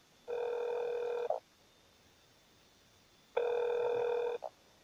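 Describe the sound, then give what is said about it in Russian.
A newsroom telephone ringing: two long electronic ring bursts, each about a second, separated by a pause of roughly two seconds, fairly faint and with no voices. “Взять трубку и переключить на автоответчик.”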